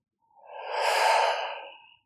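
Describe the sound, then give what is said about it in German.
A deep breath during a guided breathing exercise: one long, smooth, airy breath that swells and fades again, heard alone with no talking. “Atme ah, hier nochmal ganz tief ein. Vollständig aus.”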